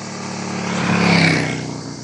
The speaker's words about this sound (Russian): оживленная трасса.